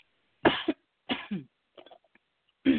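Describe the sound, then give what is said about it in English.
Coughing and throat clearing from one person with something stuck in the throat: a few short, harsh bursts separated by pauses, ending with a fainter rasp and one last cough, with no talk. “Excuse me, all. So, yeah, I have something in my throat I can't clear.”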